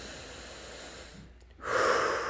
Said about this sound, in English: I'm going to put my hand on my heart and breathe.